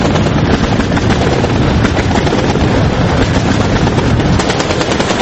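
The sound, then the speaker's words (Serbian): Gunfire and explosions in Tripoli, Libya: a loud, unbroken roar of rapid shots and blasts that runs dense and steady for the whole clip, with no clear pauses between bursts. “Eksplozije i pucnjave što odjekuju glavnim gradom Libije”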